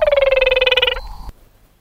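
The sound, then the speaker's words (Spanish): Call of a small frog from Brazil: a loud, rapidly pulsed trill of about one second that falls slightly in pitch, followed by a short, quieter tone. “Es una ranita de Brasil.”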